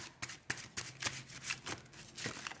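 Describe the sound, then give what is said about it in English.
Playing cards being shuffled and drawn for a Taurus card reading: many crisp riffling and snapping bursts in an uneven rhythm, fairly loud, with no talk. “I'm just picking a card. I will take 5 cards for you, Taurus.”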